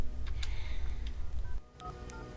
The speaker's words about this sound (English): He dials a number.